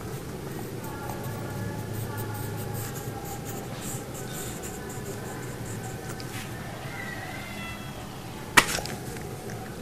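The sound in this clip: A child's pen scratches across paper while drawing, a continuous run of scratchy strokes, broken by one sharp knock near the end, with faint voices now and then.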